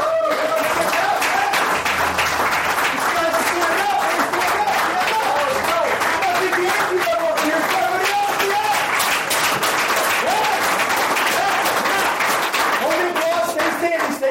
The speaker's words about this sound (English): Stand up now. Put your hands together and welcome Mr. Brian Kane.